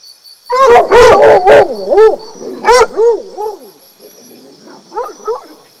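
A fox calls in a loud string of sharp, yelping barks that turn into wavering, warbling cries, then a few fainter calls toward the end.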